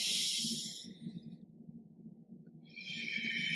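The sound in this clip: Slow, deep breathing in a guided breathing exercise: a soft, airy exhale fades away into near quiet, then another breath rises again, all faint and unhurried.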